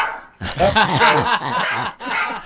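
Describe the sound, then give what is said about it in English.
A dog barks in a quick, dense run of harmonic barks and yips lasting about a second and a half, then a short final burst after a brief pause. “That's a dog barking.”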